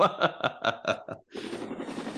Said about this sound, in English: Helicopter whirling.